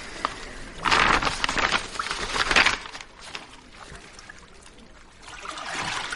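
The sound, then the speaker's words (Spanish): Water splashes as a young woman bathes in a house: two louder bursts of sloshing, then a softer, steady trickle that swells again at the end. “Luego la joven se da un baño desnuda en casa de Espinosa”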